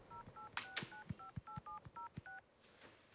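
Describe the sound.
A telephone number is dialed on a touch-tone keypad: a quick, even run of about ten short, clear beeps with changing tones, fairly faint, then a brief hiss as the line opens.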